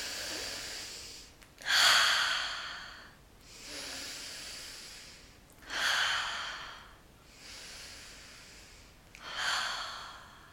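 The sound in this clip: Deep breathing during a guided seated breathing exercise: three strong, hissing exhales alternate with quieter, softer inhales in a slow, even rhythm, with no talk.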